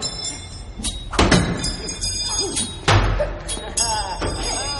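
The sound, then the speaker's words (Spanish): Knives are thrown at human-shaped targets on a wooden panel in a training hall, landing with a few sharp, dull thunks spaced apart over a low, steady background. “los iniciados lanzan cuchillos a unas dianas con forma humana situadas en un panel de madera”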